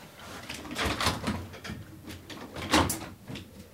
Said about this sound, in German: Ich frage mich, ob man vielleicht das Fenster zumachen kann, weil draußen hämmert es manchmal so.